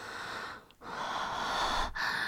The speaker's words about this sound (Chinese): 我有一点呼吸不了，所以可能这个喘息声会重一点。